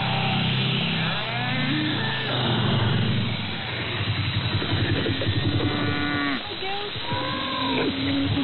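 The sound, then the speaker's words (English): Dairy cows moo repeatedly as they come in for milking on a west coast farm. Several long, drawn-out calls rise over a constant low rumble, with no talk. “And, cows are coming in. Going for their night break tonight.”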